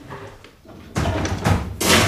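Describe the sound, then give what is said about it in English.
A large wooden door being pushed open, three loud, broad bursts of knocking and scraping in quick succession after a quiet start, with no talk. “A large wooden door.”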